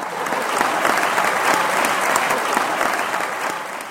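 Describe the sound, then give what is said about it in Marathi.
Audience applause at a live talk fills all four seconds with dense, steady clapping that stays at an even loudness throughout. “आता ज्या लोकांनी बघितलं त्यांच्यासाठी जोरदार टाळ्या वाजवा एकदा.”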